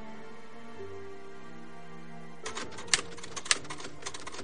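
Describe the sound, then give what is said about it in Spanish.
Typewriter keys strike in a few irregular, sharp clicks that begin midway through a quiet stretch, faint and without voices. “Blanca vuelve la mirada hacia la máquina y comienza a teclear.”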